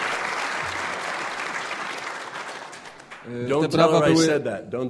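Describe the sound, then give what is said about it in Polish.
Audience applause, a dense, steady clatter of many hands clapping for about three seconds that thins out, followed by a man speaking. “Nie mówcie jej, ale te brawa były dla mojej żony, nie dla mnie.”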